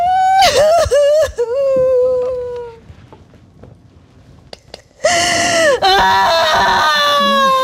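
Loud sobbing and wailing cries from a video game character hiding in a pet carrier, in two bursts with gasping breaths, separated by a quieter pause with faint clicks.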